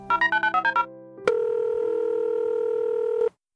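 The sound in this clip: A telephone line tone as a call connects, preceded by eight quick touch-tone dialing beeps. After a brief pause and a click, a steady electronic tone holds for about two seconds and then cuts off abruptly.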